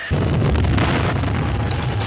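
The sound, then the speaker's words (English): Explosions from sixteen 750-pound bombs dropped by the US Air Force on a large target area merge into one loud, continuous, deep roaring rumble that holds steady throughout. “The United States Air Force heats it up with the Chief with 16 750-pounders, demonstrates its capability against large target areas.”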